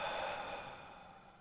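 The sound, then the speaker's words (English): A slow exhale released after a held breath during a guided calming exercise: a single soft, breathy rush that holds steady and gradually fades across its length. “Inhale. Hold it. And exhale.”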